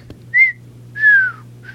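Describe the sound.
A person whistles the tune of a rap song: a short clear note, then a longer note that slides down in pitch, then the start of a third. The whistling is moderately soft over a low steady hum.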